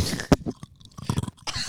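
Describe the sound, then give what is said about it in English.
Ice gets crunched and sucked in the mouth, a few sharp, brittle crunches with softer wet chewing and sucking noises between them, close and fairly loud. “Keep sucking on ice, dude.”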